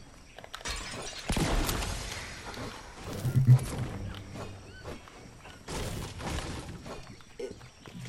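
Crashing, shattering breaks as a ship structure is smashed apart in the video game Fortnite, with several loud bursts of splintering impacts over a busy game background.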